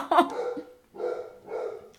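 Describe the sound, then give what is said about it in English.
Loud barking from a big male dog: three heavy, deep barks in quick succession with short gaps, each a gruff burst, with no talk over them. “Doesn't he have such a manly bark, though? He does have a manly bark, but he's a big boy.”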